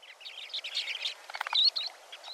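Call of a female western sandpiper: a quick series of high, thin chirps and twittering notes that rise and fall in loudness, with a tight cluster of clipped notes near the middle.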